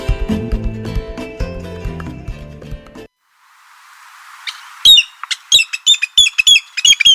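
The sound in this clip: A pitillo bird calls repeatedly in sharp, high, squawking chirps, coming in short irregular bursts after a stretch of music fades out.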